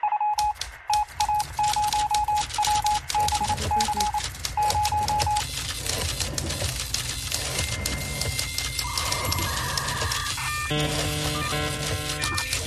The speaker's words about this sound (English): The typewriter, the dot matrix printer, or the fax modem.